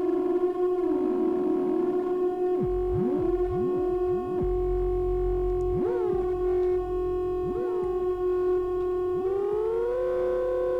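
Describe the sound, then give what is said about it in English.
A very fast, near-imperceptible delay effect smears a sustained electronic tone into a reverb-like wash. The loud, steady note is broken by several swooping pitch bends and ends on a slight upward glide, with no talking. “there's like a fast delay, like an imperceptibly fast delay that's making kind of like a reverb.”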